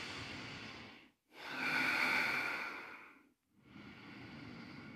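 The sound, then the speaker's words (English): Ujjayi breathing during yoga, slow, hissing, throaty breaths drawn through a narrowed throat, each long and steady with a soft swell, separated by brief silent pauses. “You can kind of hear I'm utilizing that Ujjayi breath mechanism.”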